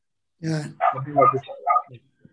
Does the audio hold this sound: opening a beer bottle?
no